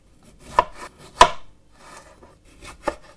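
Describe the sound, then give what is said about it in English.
A knife cuts vine tomatoes into quarters in a series of dull, irregular chops, a few landing much louder than the softer taps between them, with no talking. “You need good quality tomatoes, so I've got on the vine ones, and what I'm going to do with these, I'm going to cut them into quarters.”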